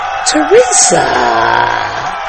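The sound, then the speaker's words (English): Crowd cheering with loud whoops and yells rising over a continuous roar of voices. “Teresa, no, we're not cheering for you, Teresa. I'm waiting for the cheers to go off.”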